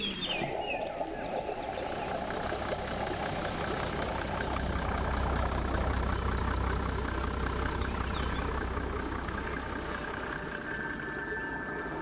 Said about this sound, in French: Des voitures, des pompes.